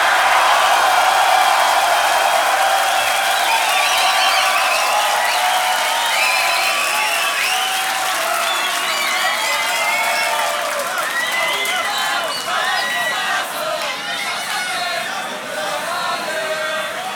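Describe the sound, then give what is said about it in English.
An audience at a beatbox battle claps and cheers loudly, with whoops and shouts rising over continuous applause that eases slightly toward the end. “One more round of applause for both the contestants. Please make some noise for them.”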